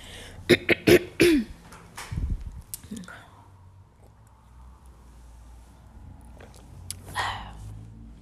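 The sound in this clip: A person coughs and clears their throat several times in quick succession near the start. The sounds are sharp and fairly loud. Only faint low background noise and a few softer sounds follow.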